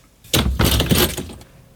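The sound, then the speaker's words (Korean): A door flung open into a lab: a sudden loud burst of rattling, clattering noise that holds for about a second, then trails off quickly into quiet. “란주는 짧게 숨을 뱉었다. 그리고 문을 펄컥 열었다.”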